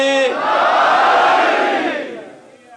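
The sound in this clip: A crowd roars back in unison after the Naara-e-Haidari chant, called in the name of Mola Ali at a religious gathering. A brief voice opens, then a loud, broad shout swells and sustains before fading over the last second.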